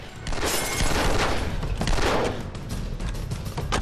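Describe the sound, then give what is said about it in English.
Gunfire from a high-powered rifle shooting through a large metal wheelie bin: a dense run of loud, sharp blasts and cracks that follows without pause for the whole stretch. “He shoots right through the bin, hitting Larry. Larry falls, still shooting.”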